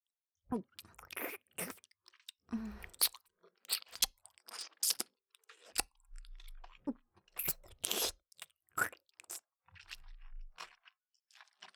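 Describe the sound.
Crunchy food being bitten and chewed, with many sharp, crackling crunches in irregular bursts separated by brief pauses and no talk.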